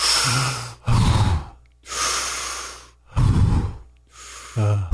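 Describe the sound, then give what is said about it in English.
Deep breaths taken during a church prayer, each slow inhale and exhale alternating in steady, fairly loud, breathy pulses across several cycles, with no talk over them. “Now take three deep breaths, breathe in the Holy Spirit right now.”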